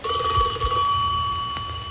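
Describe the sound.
A telephone rings with a steady, high electronic tone that holds level and unbroken throughout, over faint low thumps.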